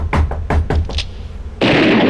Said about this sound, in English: Wow, she's knocking really hard today.